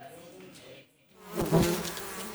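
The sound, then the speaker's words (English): Stingless Melipona bees buzz at an opened beehive in the Amazon rainforest of southeastern Peru. The dense, steady hum dips briefly, then swells louder and fuller. “There is no danger in opening this beehive without protection gear. These bees are stingless, the Melipona bees, a species as gentle as it is vital for the health of the rainforest.”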